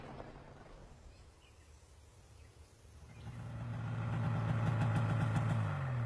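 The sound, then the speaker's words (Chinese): A motorcycle engine rides off, a low steady drone that idles quietly at first, then swells louder and stays strong through the second half, with no voices. “金深水骑着摩托车去密码处的库房”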